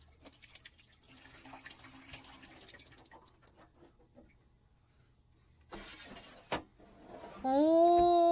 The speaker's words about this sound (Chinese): おおちゃんと水も出る。手洗いもできる。